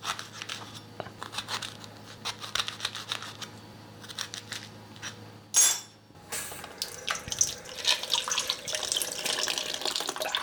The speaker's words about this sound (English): I'm gonna partially quarter them and then take out the seeds underwater.